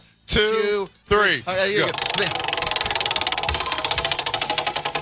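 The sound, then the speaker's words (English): A prize wheel spun during a game spins with a rapid, steady run of many loud clicks from its pointer. People talk at the start before the ticking takes over. “Whose turn is it to spin the wheel? I don't know. Let's spin it together.”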